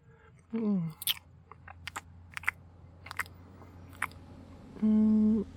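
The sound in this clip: Someone chews food that contains cheese, producing a series of irregular soft crunches and wet clicks, with a brief voiced murmur near the start and another near the end.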